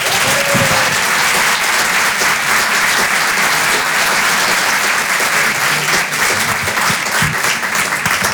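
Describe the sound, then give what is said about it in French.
Loud, sustained applause from a stand-up comedy audience as a comedian is brought on stage, a dense, steady wash of clapping that fills the whole clip without a break. “Je vous demande de l'encourager. Faites un maximum de bruit, s'il vous plaît, pour Aymeric Carré.”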